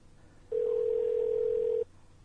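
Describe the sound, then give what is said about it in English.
A steady telephone tone heard while calling a number, one continuous mid-pitched beep of a little over a second that starts and stops abruptly over faint background hiss. “And we're going to call her for a third time now.”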